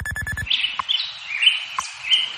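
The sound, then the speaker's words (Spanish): Birds chirping at dawn in Madrid: a few bright, short chirps and trills in quick succession, following a brief pulsing tone at the start. “Pues ya están por aquí los pajaritos de Radio Hora que nos indican que amanece oficialmente en Madrid en estos momentos.”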